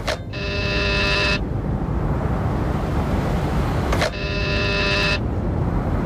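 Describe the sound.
Two electronic buzzes from the doorbell at the building entrance of number 72 Calle Princesa, each lasting about a second with a few seconds between them, over steady traffic noise.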